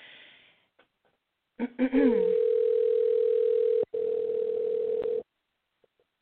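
A telephone rings out while calling a cell phone: a steady, loud, mid-pitched tone holds for a few seconds, with one brief break, after a short rising vocal sound.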